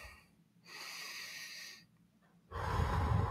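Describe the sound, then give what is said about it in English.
A quick human breath drawn in with a faint wheezy, tonal edge, a short pause, then a louder, rougher exhale that runs to the end. “let me take a quick breath in.”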